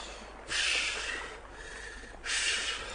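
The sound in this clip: Two deep breaths drawn in through the nose, each a soft, rushing airy sound lasting close to a second, separated by a brief pause; faint and without speech.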